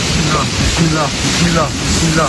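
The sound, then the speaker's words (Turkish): Strong storm wind roars during a severe windstorm in Istanbul, a steady, loud rushing noise that buffets the microphone, with faint voices underneath. “Fırtına hala şiddetli devam ediyor.”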